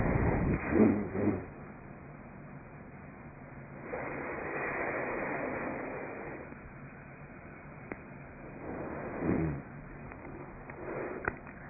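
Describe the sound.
Guided single-nostril breathing with the other nostril held closed: a few soft, airy breaths, muffled and fairly faint, with slow swells of breath noise rising and falling between quieter gaps.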